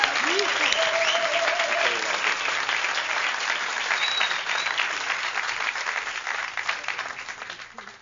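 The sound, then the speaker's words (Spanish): Loud, sustained audience applause for a guest, many hands clapping in a thick, continuous roar that stays strong before gradually thinning and fading toward the end. “Un aplauso bien fuerte para Daniel Gutiérrez.”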